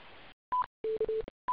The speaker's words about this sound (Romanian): Îmi pare rău, a trecut doar o purtătoare fără modulație.